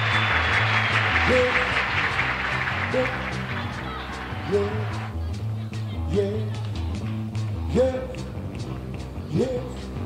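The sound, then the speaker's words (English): Audience applause at a live show greets a band member over bass-heavy music with sliding low notes. The clapping is dense and steady at first, then fades out about halfway while the music carries on. “Mr. Earl McClain, how about a wonderful round of applause?”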